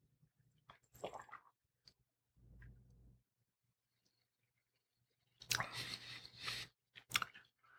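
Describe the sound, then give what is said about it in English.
Quiet sipping and mouth sounds as someone tastes a spiced dark lager: a few faint clicks and a soft low gulp, then a longer wet slurp with smacking near the end. “I love these dark lagers, so I'm looking forward to try this. Let me smell it. Oh, wow. Yeah, it smells kind of spicy. Let's give it a taste.”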